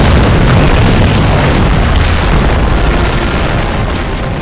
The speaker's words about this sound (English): I'm halfway down the mountain when the volcano explodes.